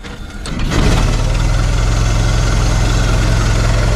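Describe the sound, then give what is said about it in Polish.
A car engine starts up and settles into a steady, deep idle, a low rumble that swells in the first second and then holds even and fairly loud with no other sounds. “Uruchomiony samochód i mimo tego, że tego prawie nie słychać, to on za chwileczkę ruszy i będzie jechał.”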